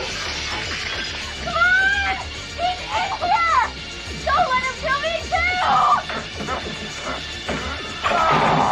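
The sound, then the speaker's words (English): Glass shatters as a door's window is smashed in, several sharp breaking crashes and scattering shards, with shrill vocal cries in between. “She races downstairs and breaks the door's window to shout through.”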